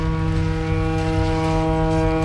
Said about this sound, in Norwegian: Det et båthorn, tror jeg.